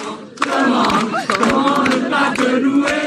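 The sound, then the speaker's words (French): Huge Catholic crowd at an open-air mass on the Place de la Concorde in Paris, acclaiming Pope Leo XIV with a loud, sustained roar of cheers and shouts that barely dips. “800 000 personnes étaient présentes hier à la messe géante célébrée par Léon XIV sur la place de la Concorde à Paris. Le pape acclamé par des catholiques et certains avaient donc fait le déplacement depuis le continent.”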